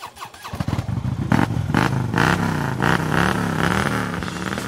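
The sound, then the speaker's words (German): A specially customised Harley-Davidson Street Glide motorcycle with a 1.7-litre, 84-horsepower engine rumbles loudly at a motorcycle blessing gathering. The deep, steady engine note is broken by repeated throttle pulses that briefly lift its pitch. “Also das ist ein 1,7 Liter motorisches, das ist ein Harley Davidson, das ist ein Street Glide, ist er. Hat 84 PS.”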